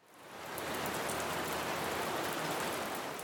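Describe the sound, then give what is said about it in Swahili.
Heavy rain pours down in a dense, steady hiss that swells in over the first half second and then holds loud and even, with no pauses or breaks. “Sasa kabla ya kusikia zaidi kuhusu hali ya hapa, hebu tuisikilize nguvu ya mvua inavyonyesha.”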